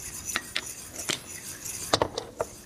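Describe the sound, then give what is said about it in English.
A utensil stirs continuously in a pot, scraping and clinking against the sides in a series of short, irregular knocks and rasps over a faint background. “and so the whole time you're doing this, you wanna make sure that you're stirring continuously”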